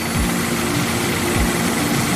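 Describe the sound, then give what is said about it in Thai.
Whirring of Beyblade spinning tops battling at matched speed, a loud, constant buzzing drone like a small engine, broken by two brief swooping sweeps that drop in pitch. “เบเบรดของทั้งสองฝ่ายหมุนด้วยความเร็วเท่ากันแล้วเนี่ย”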